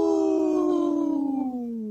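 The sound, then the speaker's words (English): A person howls in imitation of a wolf: one long, wavering vocal howl that holds steady and then slides lower toward the end, heard alone without other talk. “That was a good howl.”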